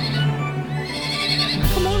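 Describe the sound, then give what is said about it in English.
A pony neighs in a loud, strained whinny that fills about two seconds, rough and breathy with a strong tonal edge. “Looky here, I found a pony. That pony's real, he's not a phony.”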